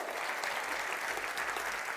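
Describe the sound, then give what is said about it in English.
Dense, steady applause and clapping from a live audience cheering people at a talk, continuous and even in loudness throughout, with no voices standing out. “Let's clap it up for them. That's awesome.”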